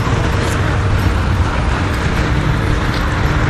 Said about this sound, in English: And as you can hear, the car is reverberating off the wall here.